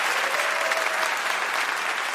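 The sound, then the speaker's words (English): Applause from a live audience for presenters at an evening show, a dense and even wash of clapping that stays loud and steady throughout. “Can we give one more hand to all our audience presenters tonight? Really great job.”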